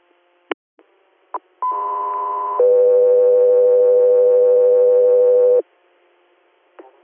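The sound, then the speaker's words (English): Radio dispatch alert tones for an air medical interfacility transfer request. A steady higher tone lasts about a second, then drops straight into a longer, lower steady tone of about three seconds. A few short clicks come before and after the tones. “Cut through here, stand by for tones.”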